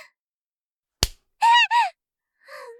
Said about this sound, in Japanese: 何？あなた、お尻を叩いたの？やだ！後になっちゃう！叩かないでくださいよ！